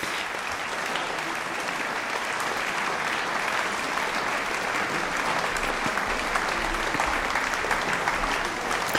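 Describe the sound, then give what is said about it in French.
A concert audience applauds continuously, calling the performers back for repeated encores at a festival concert. The clapping is thick, even and sustained at a steady level for the full nine seconds. “Mais le changement de plateau ne commence pas tout de suite parce qu'il y a de nombreux rappels. Le public est visiblement conquis.”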